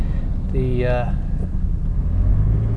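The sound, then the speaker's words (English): A car driving home from work through Brisbane, heard from inside the cabin: a steady low engine and road rumble that runs throughout, with a brief tonal sound near the start. “just driving home from work here in this lovely city of Brisbane.”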